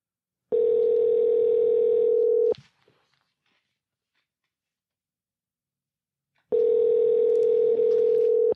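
Telephone call tone: two long, steady, loud tones of about two seconds each, separated by four seconds of silence, as a phone rings out on a call.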